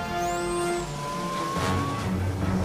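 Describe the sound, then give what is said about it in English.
Race car engines roar as the racers speed into a tunnel during a race, a loud continuous rushing drone that surges in the second half with a whooshing burst. “The racers speed into a tunnel.”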